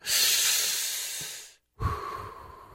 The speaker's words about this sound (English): take a deep breath. Just take a breath.